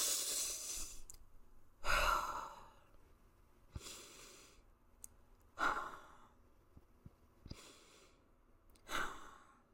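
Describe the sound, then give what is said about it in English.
Three deep breaths taken slowly during a closing prayer, each a long, breathy exhale that swells and fades, spaced evenly a few seconds apart with softer intakes between, heard alone without talk. “So I'm going to take 3 deep breaths.”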